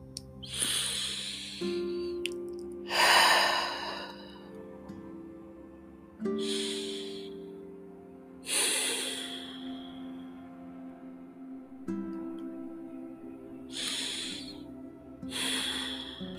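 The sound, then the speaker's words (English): Deep breaths drawn in and let out slowly during a guided relaxation, several soft breathy rushes spaced a few seconds apart, each swelling then fading, over a quiet sustained tonal drone. “we're going to take a couple more deep breaths together.”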